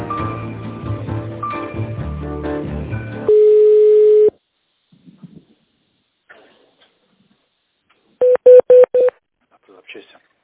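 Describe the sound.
Telephone keypad tones from a business call to a partner bank: after a stretch of music-like sound, one steady tone holds for about a second, then a quiet gap, then four quick, bright dialing beeps in a row.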